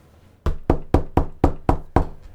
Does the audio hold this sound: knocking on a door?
yes